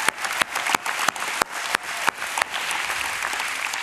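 A church audience applauds, a steady wash of clapping with a few sharper, louder claps standing out at fairly regular intervals.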